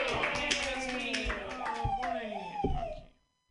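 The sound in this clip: Audience clapping and cheering for a comedian taking the stage at a comedy show: dense, continuous applause mixed with excited voices, holding steady before cutting off abruptly near the end.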